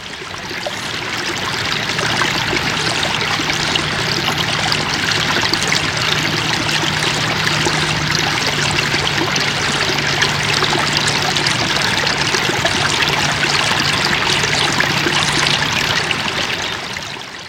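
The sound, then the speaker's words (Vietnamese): A babbling stream flows over a large rock covered in small plants and spills down in a small cascade. The rushing, trickling water is steady and unbroken for the whole clip, with no voices. “con suối róc rách chảy qua một tảng đá to, phủ đầy cây nhỏ, buông xuống thành một thác hoa suối theo dòng nước.”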